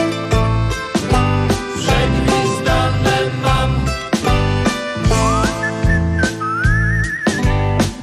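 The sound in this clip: A person whistles a high, wavering melody over a steady, lively band accompaniment, the whistle coming in during the second half with a few sliding, trilled notes.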